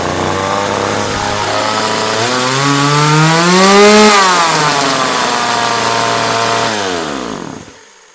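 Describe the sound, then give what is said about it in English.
A chainsaw engine revving loudly as a weapon of chainsaw arm blades, its whining pitch climbing to a peak, then dropping back and cutting off abruptly at the end. “That's when I hear the arm blades chainsaw revving”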